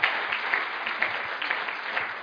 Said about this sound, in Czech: Tak myslím, že můžeme tady panu profesorovi zatleskat.